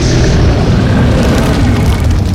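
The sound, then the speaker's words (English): A blast of freezing blue fire roars against spatulas held up as shields, a loud, steady whooshing rush with deep rumbling that stays constant throughout. “Here comes the freezing fire. Quick, knights, hold up your spatulas and use them as shields.”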